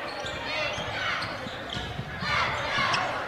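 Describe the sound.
A basketball being dribbled on the court during a game. Steady, repeated bounces sit under a continuous wash of crowd noise.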